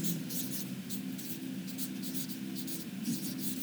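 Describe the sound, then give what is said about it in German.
Chalk or marker scratches across a board as a word is written during a Bible talk: a steady run of many short, scratchy strokes with no voices. “Und also da schreibe ich einmal Ursprung”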